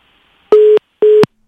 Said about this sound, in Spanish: Bueno, pues justo cuando termina Renan, ya se cortó la llamada.